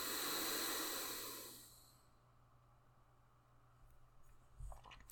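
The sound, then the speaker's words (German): A slow nasal exhalation during alternate nostril breathing, Nadi Shodhana pranayama, comes as a loud, airy hiss that fades away over about two seconds. Near-silence follows, broken by a few faint clicks near the end. “Wechsel mit dem Daumen, links ausatmen. Links einatmen. Wechsel und rechts ausatmen.”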